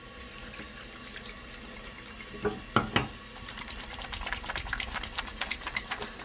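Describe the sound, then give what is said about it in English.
Water runs from a tap while hands are washed. A faint steady stream is broken by irregular splashes and rubbing bursts that grow busier toward the end. “let's start this episode with something we all should do several times a day: washing hands.”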